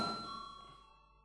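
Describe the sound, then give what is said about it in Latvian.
A bell rings during a parliament voting session: a single faint, clearly pitched ring that fades away within about a second, alone. “Un tagad lūdzu zvanu.”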